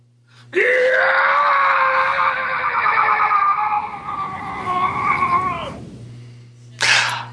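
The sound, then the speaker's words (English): A voice imitates a creature's scream of agony in a tabletop Ghostbusters game, a loud, strained, wavering howl held about five seconds, then a brief sharp burst after a pause. “as it's stomping over them, the peach juice seems to elicit another scream of agony.”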